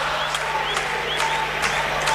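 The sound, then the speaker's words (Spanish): A crowd of football fans applauds in a stadium with steady, dense clapping. The clapping holds at an even level for the whole moment. “Bueno, ahí está el aplauso de la gente.”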